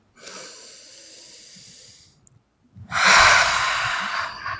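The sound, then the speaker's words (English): A slow, deep breath taken during a self-acceptance tapping exercise: a soft, airy inhale of about two seconds, a short silence, then a louder, fuller breath that lasts to the end. “Deep breath.”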